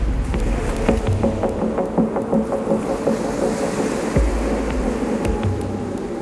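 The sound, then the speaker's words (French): Heavy ocean waves several metres high meet a racing sailboat in the Indian Ocean during a solo round-the-world race, with easing wind. A steady roaring wash carries scattered sharp knocks and a dull thud as the hull slams the water, with no voices. “Le vent faiblit, mais la mer est toujours très formée. Les creux atteignent parfois plusieurs mètres. À chaque passage, la coque avant du voilier tape sur l'eau dans un fracas sourd et violent.”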